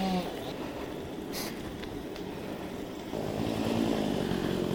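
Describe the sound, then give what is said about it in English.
A chainsaw engine drones continuously beside a railway cutting trail in the Welsh hills, where trees are being felled. The rough motor noise stays steady and grows a little louder toward the end. “And someone's blocking the way with their chainsaw in their cart.”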